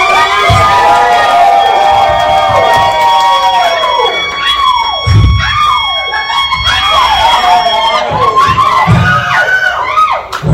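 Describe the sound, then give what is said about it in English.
A large convention crowd at Anime Detour cheers and screams, loud and unbroken throughout, with high shouts and whoops rising over a dense roar. “Absolutely beautiful crowd we have here. Wow, we got a lot of new faces.”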